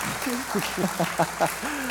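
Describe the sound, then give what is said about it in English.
Audience applause during a church gathering, a steady wash of clapping held through the whole clip, with a voice speaking clearly over it. “Feel free to clap.”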